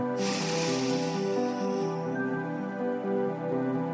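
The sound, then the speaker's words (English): A big, deep inhale during a guided meditation breathing exercise, an airy rush of breath drawn in for about two seconds before fading into a quieter, steady background. “Okay, here's the last inhale. Here we go. Inhale, big.”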